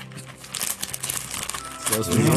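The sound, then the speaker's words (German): Gift wrapping paper crinkling and rustling close to a microphone during an ASMR-style unwrapping, with irregular crackling bursts that grow louder, and a voice speaking toward the end. “da hören die jetzt aber wirklich, dass ich auch was eingepackt habe”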